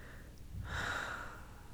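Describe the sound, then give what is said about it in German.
A deep breath taken during a guided morning meditation exercise: one soft, airy breath that swells and fades over about a second, heard alone with no talking. “tief, tief ein und bring beide Hände seitlich nach oben und atme aus.”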